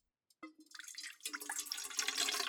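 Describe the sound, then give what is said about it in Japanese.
Hot water poured into a large bowl to melt chocolate in a water bath. A few drips and trickles come first, then they build into a steady splashing pour that grows louder and fuller. “そろそろお湯もできたかな。そしたら大きなボウルにお湯を入れて、”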